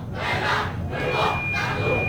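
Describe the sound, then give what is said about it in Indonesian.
Audience at a stage event cheering and shouting in response to a yell chant by young representatives of Tabanan Regency. Massed voices swell in three loud surges. “Inggih, luar biasa sekali sorak-sorai dari penonton niki menyambut dari yel-yel yang sudah disampaikan niki alit-alit saking perwakilan duta Kabupaten Tabanan nggih.”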